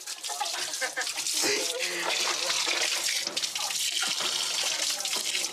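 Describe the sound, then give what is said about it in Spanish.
Tap water runs steadily as someone washes, a continuous hissing rush with small splashes, and voices are heard intermittently over it. “Me tengo que lavar.”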